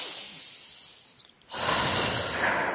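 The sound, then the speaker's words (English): A slow deep breath is taken during a guided forgiveness exercise. A long, airy inhale is followed by a brief pause, then a fuller, louder breathy exhale that continues to the end. “And take a deep breath.”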